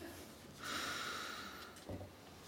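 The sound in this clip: A long, audible breath of air with a hissy, slightly whistling tone, followed by a brief second puff, taken slowly during a guided calm-breathing moment; quiet and alone, with no talk.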